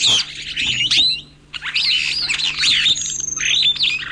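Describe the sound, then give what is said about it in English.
Superb starlings calling in East Africa: many bright chirps, whistles and squawks tumble over one another in a busy, high-pitched chatter, with a brief lull partway through before the calling picks up again. “But scientists studying superb starlings in East Africa have learned that the females of this species seem to be the ones with cheating on their minds.”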